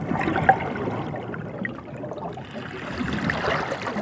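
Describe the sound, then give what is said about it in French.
Sea noise, added as a sound effect by second-grade schoolchildren in a creative workshop: a continuous rushing wash of water. It dips slightly midway and swells again toward the end, with no voices. “Il a ajouté par exemple le bruit de la mer,”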